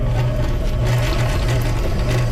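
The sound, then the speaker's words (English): A sewing machine runs at a sewing camp, giving a steady, loud motor whir with a fast, even pulsing stitch rhythm throughout. “try to overcome his fear of sewing machines. Let's have a listen.”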